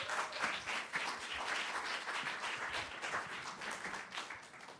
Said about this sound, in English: So let's just open our hearts and put our hands together and welcome Melanie.